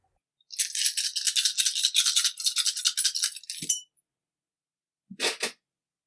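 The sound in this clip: Dice rattle in a long, steady burst during a close-combat roll in a tabletop role-playing game, then stop. After a short pause a brief second clatter follows. No talk is heard.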